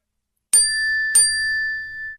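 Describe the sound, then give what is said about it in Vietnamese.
A phone's text message notification: two bright, bell-like dings about half a second apart, each struck sharply and ringing on with a clear, high tone that fades slowly. “Điện thoại tôi có tin nhắn.”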